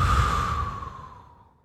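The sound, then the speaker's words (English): A long, breathy exhale is blown out during a meditation breathing exercise. It starts as a soft whooshing rush and gradually fades away. “Deep breath in. Blow it out.”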